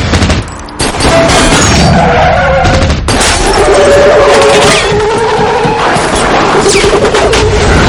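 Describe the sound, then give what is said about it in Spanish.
Gunfire as mercenaries shoot at Frank in the 2013 action film El Último Desafío: loud, sustained rapid bursts that dip briefly near the start, then rage on unbroken. “Los mercenarios le disparan.”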